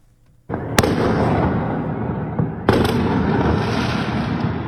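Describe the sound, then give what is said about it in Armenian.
Fireworks explode at night around 1:30 in city streets: a dense, continuous crackle and rumble with two sharp, loud bangs standing out, and no voices. “Սահաթաշ չէ մարտական ֆիլմից, այլ հրավառություն՝ գիշերը 1:30-ի սահմաններում, Սարյան-Պուշկին փողոցներում։”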